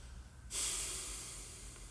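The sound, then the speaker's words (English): A deep breath in during a guided meditation starts abruptly and draws out as a steady, airy hiss that slowly fades over about a second and a half. “and taking a deep breath in,”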